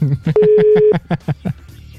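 A telephone dialing tone sounds as a call is placed, with a steady beep lasting about half a second amid a rapid, regular series of short pulsed tones that then fade.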